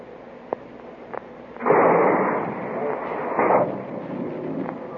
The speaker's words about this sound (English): Mark torpedo, fire 1. Fire 2.